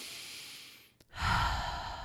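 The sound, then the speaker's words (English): A person takes a deep breath: a long, airy inhale, a brief pause, then a fuller, louder exhale lasting about a second, with no talk. “take a deep breath.”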